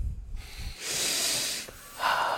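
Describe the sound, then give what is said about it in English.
A person takes a deep breath: a long, airy, hissing rush of air, then after a short pause a shorter, sharper snorting breath. No words are spoken. “I'm sorry. Just taking a breath.”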